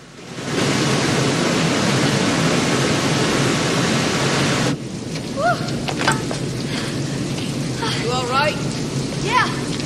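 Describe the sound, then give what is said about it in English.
White water thundering over a sheer drop into a tumultuous plunge pool makes a dense, steady, full-bodied roar. Partway through, the roar thins and drops slightly in level, with a few brief high chirps over the later part. “White water, thundering over a sheer drop into a tumultuous plunge pool, sending up clouds of mist.”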